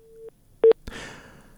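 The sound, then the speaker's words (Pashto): Telephone tones from a dropped call: a steady mid-pitched tone cuts off, then a short, loud beep, followed by a click and a fading hiss. “تلیفونی تماس لکه چې له فرشته مرسل سره پرې سوی دی.”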